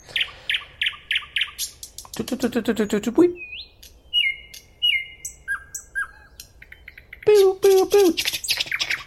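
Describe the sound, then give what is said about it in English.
Nightingale song, heard alone and loud: quick repeated chirps, then a fast buzzy rattle, followed by clear whistled notes and short varied phrases, closing with another burst of rich, rapid notes. “For example, here is the song of the nightingale, a most beloved sound in literature, poetry.”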